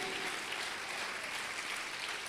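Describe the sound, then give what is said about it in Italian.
Applause from a church audience honouring Jesus Christ during a service, a dense, even wash of clapping that stays faint and steady throughout. “L'unico che non ti tradirà mai e che ti è sicuramente vicino è il Signore Gesù Cristo, che vogliamo applaudire.”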